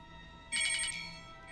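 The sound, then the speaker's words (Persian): An alarm bell sounds as a short burst of rapid, high, trilling electronic ringing lasting under half a second over a faint steady hum. “آره آره شنیدم، زنگ خطره؟”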